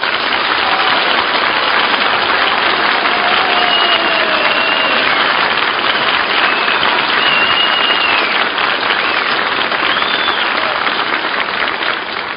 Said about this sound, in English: But it's a nice warm welcome anyway. And it comes at just the right time for a very distressed girl backstage, who probably heard this applause.